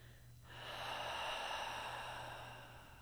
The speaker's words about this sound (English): Take one more deep breath in and then find an open mouth exhale.